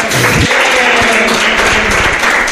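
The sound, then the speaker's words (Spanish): Audience applause at a gathering honoring a 65-year-old man: a dense, steady wash of many hands clapping that holds at an even level for the whole moment, with a few brief low tones near the start. “Un aplauso para Felipe.”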